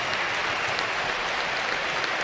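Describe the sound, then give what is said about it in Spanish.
A football stadium crowd applauds a substituted player with dense, steady clapping that continues at an even level through the whole clip. “se va Quique García con el aplauso del público”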